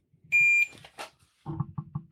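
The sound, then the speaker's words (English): A shot timer gives a single loud, high-pitched electronic beep lasting about a third of a second, followed by a short burst of noise and then a series of softer, low, rhythmic thumps. “okay, I'm going to hit the shot timer”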